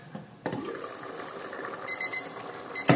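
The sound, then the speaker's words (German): A kitchen timer beeps while beans are cooking: a few short, high electronic beeps in two quick bursts near the end, over soft cooking noise. “Ja, Uhr hat auch gepiepst. Stellen wir gleich wieder auf 5 Minuten ein.”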